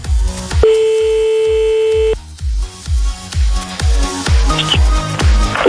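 A telephone line tone sounds while a call is being placed: one steady, mid-pitched tone lasting about a second and a half, loud over rhythmic, beat-driven music that continues after the tone stops.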